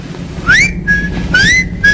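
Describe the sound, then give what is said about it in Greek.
Whistling into a telephone: two loud whistled phrases, each a quick upward glide that levels into a steady held tone, with no talking. “κάποιος σφυρίζει το τηλέφωνο. Συμπτηματικό. Αμάν, τώρα τι να κάνω. Σφύρα κι εσύ.”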